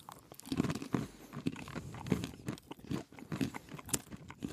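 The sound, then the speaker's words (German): Someone crunches vanilla-sugar coated cashews, giving many irregular crisp bites and grinding crackles at a fairly quiet level, with no talking. “Aber das ist halt ein bisschen bei Vanillezucker nicht überraschend. Dann können wir probieren. Jetzt probieren.”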